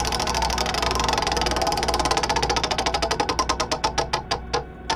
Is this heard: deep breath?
no